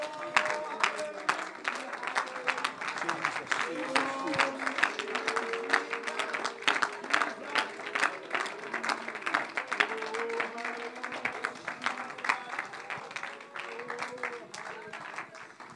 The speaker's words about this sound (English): Come on, clap your hands to the Lord right now.